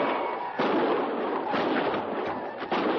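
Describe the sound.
Heavy gunfire rolls on without a break during a battle in a canyon. The shots blur into a loud, dense, continuous crackle and roar.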